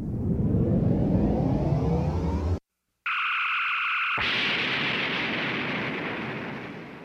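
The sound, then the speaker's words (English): A fictional spaceship's improbability drive powering up: a loud roaring rush, an abrupt cut to silence, then a steady pitched hum over broad hissing noise. “We're headed towards an alien armada. Readying the improbability drive.”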